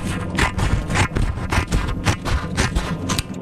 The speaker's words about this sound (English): Cutting paper with scissors? Is it cutting paper with scissors?